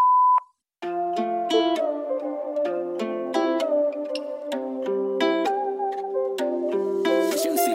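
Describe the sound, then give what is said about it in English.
Short steady electronic beep of a voicemail tone sounding once after a recorded message, then music with sustained melodic notes begins and continues. “The number you have dialed cannot be reached at this moment. Please call back later or leave a message after the tone.”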